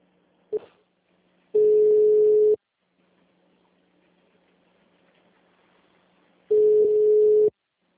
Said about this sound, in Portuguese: Oi, Ricardo, desculpa, a ligação caiu.